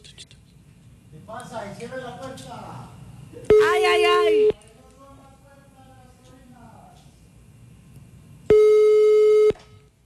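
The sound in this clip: A telephone busy signal sounds as two long, steady, loud beeps separated by several seconds of people talking quietly.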